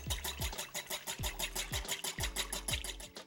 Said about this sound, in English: Whisk those together.